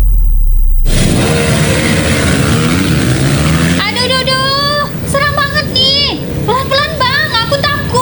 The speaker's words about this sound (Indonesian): Malam-malam gini suka banget ada balap liar. Kita sebagai pengguna jalan jadi terganggu.